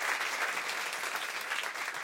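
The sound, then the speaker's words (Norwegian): A stage audience gives loud, sustained applause to welcome an evening's guest, a zoologist and spider expert. The dense clapping stays at an even level throughout. “Gi en stor applaus til kveldens gjest, zoolog og edderkoppekspert Petter Jordan.”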